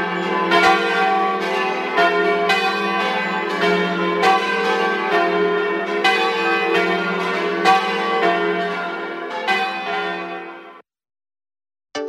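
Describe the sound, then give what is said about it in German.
Church bells, one of a set of five cast in Trento, ring in a loud, dense, continuous peal of overlapping resonant strikes, heard alone and stopping abruptly just before the end. “Die fünf Glocken der Kirche wurden in Trient gegossen.”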